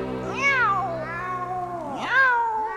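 Two drawn-out cat meows, each sliding up in pitch and then falling away, loud and clearly voiced with rich overtones, heard alone with no talk over them.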